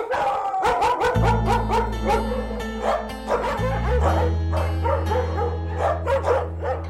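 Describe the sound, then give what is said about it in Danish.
Many dogs of different sizes and breeds barking at an animal shelter in Rødovre: a dense, continuous chorus of overlapping barks, yips and whines with a steady low hum underneath. “Der er helt vildt mange dyr og utrolig mange hunde i forskellige størrelser og farver og racer. Og de står så og snakker med hinanden hele tiden.”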